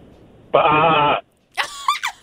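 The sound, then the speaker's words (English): A person imitates a ram's bleat: one loud, nasal, harmonic "bah" held for about half a second, followed after a short silence by a few brief vocal sounds. “He did a bah, like a... like a ram? Yeah, I think your ram does that. Did you make a ram noise? A ram does that.”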